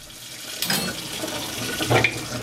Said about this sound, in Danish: Det er så dejligt afslappende at vaske op.